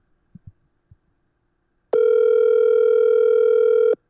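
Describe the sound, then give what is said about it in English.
Ringback tone of an outgoing telephone call ringing out unanswered. A few faint clicks come first, then one steady, even tone holds for about two seconds before cutting off. “All right, I'm going to call one more.”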